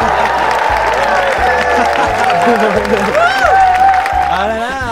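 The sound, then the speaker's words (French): A studio audience cheers and applauds in a dense, steady wash of clapping and raised voices that stays loud throughout, with voices talking over it. “Ah, le public est nombreux, il va falloir le réveiller.”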